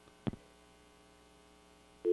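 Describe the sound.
Telephone line after a caller dropped off: a single click, then a faint steady hum, and at the very end a loud, even line tone begins.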